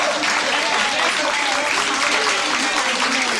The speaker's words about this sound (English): Okay, if Doris was here, she would give you an applause.